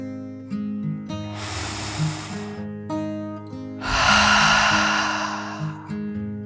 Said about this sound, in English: The little goldfish took a deep dragon breath, in and out.